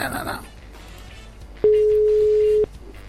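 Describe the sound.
A phone call ringing out while waiting for someone to answer, heard as a single steady, fairly low tone about one second long that rises clearly above a faint background of voices.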